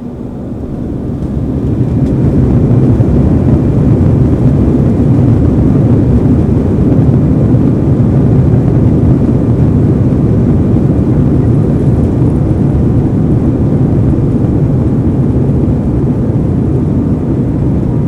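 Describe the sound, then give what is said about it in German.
Airplane engines roaring on takeoff: a deep, dense rumble swells over the first two seconds, then holds loud and steady to the end, with no voices. “We are now ready for takeoff. Please fasten your seatbelt and pull it tight.”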